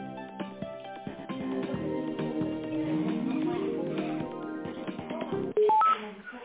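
Telephone tones play while a business call is being transferred: a string of pitched electronic notes that shift in pitch, ending in a brief, loud, steady tone.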